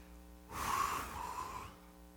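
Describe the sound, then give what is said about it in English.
A strong, deliberate exhale: one forceful breath pushed out for about a second. It is a soft, airy rush that swells and then fades over a low, steady hum. “Breathe out with me real strong,”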